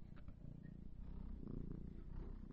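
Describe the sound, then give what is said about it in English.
Steady purring of a small female house cat, a continuous low, pulsing rumble that holds at an even level throughout with no voices. “I don't know if you can hear her purring or not, but she's a sweet little cat.”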